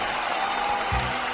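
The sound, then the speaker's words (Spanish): A crowd at a gathering applauds in a short burst of steady, even clapping that neither builds nor fades. “Ahí sí, ya paren también con los aplausos, compas.”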